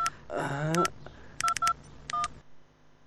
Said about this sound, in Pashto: ته صبر زه کور ته یو زنګ ووهم